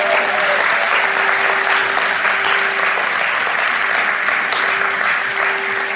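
An audience welcomes a performer to the stage with dense, even applause that holds for the full length. A faint steady tone runs underneath.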